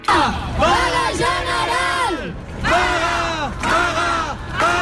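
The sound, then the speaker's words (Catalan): Protesters at a housing protest in Barcelona chant in unison. A loud crowd of voices repeats a rhythmic slogan in several sustained phrases, with brief pauses between them. “Aquest era un dels càntics que es van sentir a Barcelona”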